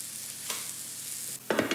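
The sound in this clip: Food frying slowly in an oiled pan, a soft, steady sizzling hiss with brief louder crackling bursts, the loudest near the end.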